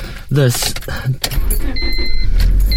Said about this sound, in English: Ooh, that was loud for you, and I realized what it was. It is when I close my car,